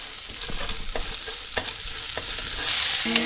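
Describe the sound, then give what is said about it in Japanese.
Bagged bean sprouts, cabbage, carrot, onion and green pepper stir-fry in sesame oil, giving a steady, loud sizzle with many scraping clicks from the stirring. “袋からそのまま入れちゃいます。 袋からそのまま、もう切らなくていいですからね。 そうですね、便利ですね。 もやし、キャベツ、人参、玉ねぎ入ってます。ピ、はい、ーマンも入ってますね、これ ですね。 はい、炒めます。”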